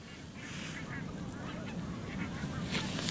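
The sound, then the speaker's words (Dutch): Geese honk and other waterfowl call at a bird-spotting site at night: many overlapping calls over a steady, dense background murmur of birds. “Je hoort hier heel veel vogels om ons heen.”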